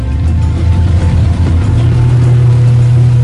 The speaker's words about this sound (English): As the go-fast boat turns around in reverse